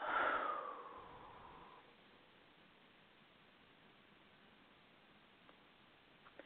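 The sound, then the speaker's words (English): Deep breathing by a group breathing in and out together: one long, breathy rush of air at the start that fades over about two seconds into a faint, steady hiss. “Let's inhale all together. And exhale.”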